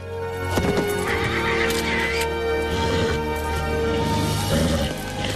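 A horse rears with a rider on its back and lets out a loud, shrill whinny, while hooves clop and thud beneath it, and the sound stays strong throughout.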